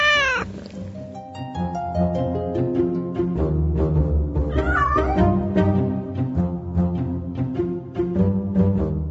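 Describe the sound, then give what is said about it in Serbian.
A pet cat meows repeatedly, giving loud, drawn-out cries with bending pitch and strong harmonics over a steady low background that runs throughout. “Bilo je tu još mnogo pitanja, ali nesumnjivo najvažnije od svih je šta ako se Silvija ne bude slagala sa njenom ljubimicom mačkom Lucijom.”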